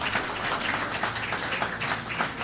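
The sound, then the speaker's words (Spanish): Congregation applause during a worship service: a lively, dense clatter of many hands clapping at once. It stays loud and busy throughout, with sharp individual claps poking through the wash. “Denle un aplauso una vez más al que vive y permanece.”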